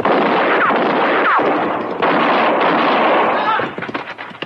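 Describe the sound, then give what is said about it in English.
Gunshots from a young rider who gallops past with a gun in his hand. Loud, dense booming blasts fill the whole stretch, with a few sharper cracks, then trail off into scattered lighter bursts. “No, he missed me. But he was shooting mighty close.”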